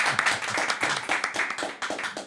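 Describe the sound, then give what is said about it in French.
An audience applauds a guest at a live show: many quick, fairly faint hand claps blend into a dense, steady patter that runs for the whole clip. “On peut l'applaudir. Merci.”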